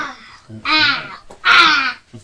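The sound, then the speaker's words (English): A toy bird's squawk: two loud, harsh, raspy caw-like cries in quick succession, each about half a second long, with a softer sound just before them. “I like the bird. The squawk.”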